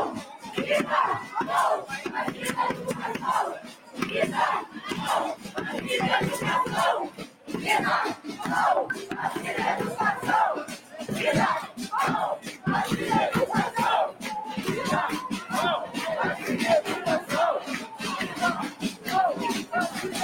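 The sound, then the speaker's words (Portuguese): A large crowd chants loudly and without a break at a rally in Volta Redonda. The many voices form a dense, rhythmic roar that stays strong throughout. “Bem grande aí o ato de volta redonda.”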